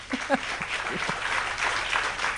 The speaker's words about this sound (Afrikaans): Kom ons gee applous vir dit.